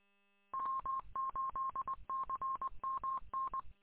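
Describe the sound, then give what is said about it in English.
Touch-tone keys beep as an international telephone number is dialed, a quick run of many short, clear tones in uneven groups with brief gaps, alone without talk. “I gotta call the Philippines and see if I can get this phone number straightened out.”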